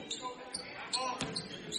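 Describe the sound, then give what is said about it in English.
A basketball is dribbled on the court during a boys' high school game, Maple River at Bethlehem Academy, giving a few sharp, hollow bounces at an uneven rhythm with voices in the background. “Hudson Dillon jogs the ball up between the legs, dribble, goes to his left.”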